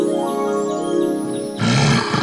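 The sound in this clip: Deep rough growl of a huge wolf, a single loud snarling burst that breaks in near the end over a quieter steady tonal background.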